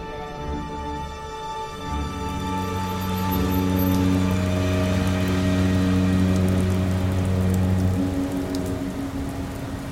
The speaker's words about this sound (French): La pluie a fait fondre toute la neige.